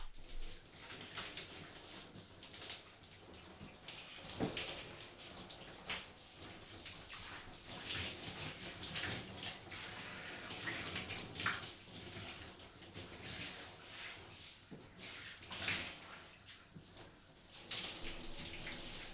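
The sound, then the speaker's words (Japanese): Warm water runs from a shower as a faint, steady hissing spray through the whole stretch, with slight surges and small splashes and no voices. “少しお湯を当てますね。”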